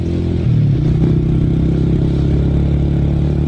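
A vehicle engine runs on arrival at the Tindivanam agricultural science centre, a steady low mechanical hum with a rough, motorcycle-like drone that holds at a constant loud level throughout.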